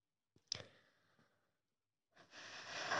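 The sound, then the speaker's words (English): A deep breath taken slowly: a quiet, airy inhale, then a short silence, then a longer and louder breathy exhale, as part of a calming breathing exercise. “deep breath like i hope people you are inhaling and exhaling like deep breaths go a long way”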